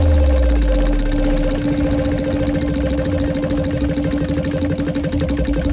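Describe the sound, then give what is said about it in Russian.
A game-show wheel of fortune spins, its pointer ticking in a rapid, even stream of clicks over a steady tonal background, with no voices. “сейчас будем крутить колесо удачи.”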